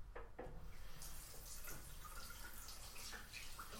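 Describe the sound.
Water running from a tap as hands are washed, a faint, steady hiss with soft splashy variations and no voices.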